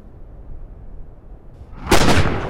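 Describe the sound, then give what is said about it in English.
Gunfire from live weapons at a shooting range, a sudden loud, sharp blast of shots near the end breaking a quiet stretch and ringing out briefly. “So we just shot some live weapons, as John calls it.”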